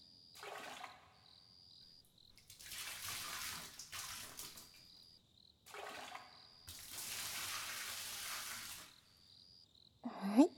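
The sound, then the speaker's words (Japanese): Hot water is poured over someone's back in a bath: a few gushing, splashing bursts of water separated by short quiet pauses, fairly soft overall. “それじゃあ一旦、お背中は流しちゃいましょうか。お湯かけますね。”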